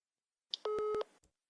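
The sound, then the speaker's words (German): A mobile phone call tone sounds as a single steady electronic beep lasting under half a second, preceded by a brief higher chirp and followed by a short soft blip. “Ich rufe dich von einem falschen Handy an.”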